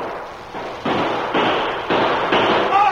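Gunfire in a shootout from a western radio drama: a rapid series of loud, sharp shots, each ringing on, the barrage growing louder as it goes.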